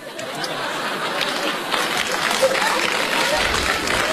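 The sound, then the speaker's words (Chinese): Audience applause during a comic crosstalk stage routine, a dense, even wash of clapping that holds steady for about four seconds. “就这您还鼓掌了？”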